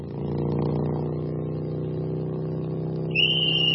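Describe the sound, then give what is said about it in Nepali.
A motorcycle speeds toward a police checkpoint with a steady, loud engine drone rich in low harmonics. Near the end, a sharp high-pitched tone cuts in above the engine. “ए रोक्नुहोस् रोक्नुहोस्, यसरी लुकेर बसेर स्पिडमा आइरहेको मोटरसाइकललाई ज्याप रोक्नु त भएन नि सर, धन्नै एक्सिडेन्ट भयो होइन त साथी हो।”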